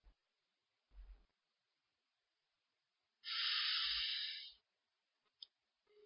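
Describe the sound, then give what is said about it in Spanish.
A single slow breath through the nose during a guided breathing exercise, heard as a soft, steady airy hiss lasting about a second, with a few faint low thumps around it and no talking. “exhalamos lentamente por la nariz y volvemos a inhalar profundamente por la nariz”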